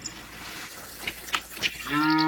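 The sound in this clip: A cow gives one short, low moo near the end, after a few faint soft noises.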